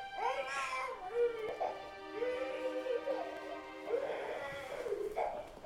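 An infant cries in several wavering, high-pitched wails at moderate loudness, with short breaks between them.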